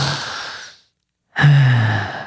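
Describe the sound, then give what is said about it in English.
Two long, deep belly breaths separated by a brief silence. The first is a soft, airy sigh; the second is louder, with a slight voiced tone, and trails off slowly. “I've been having trouble taking those deep breaths.”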